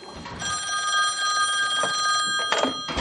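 A telephone on an office desk rings with a steady, bright electronic trill lasting nearly the whole time, fairly quiet, with a brief clatter near the end.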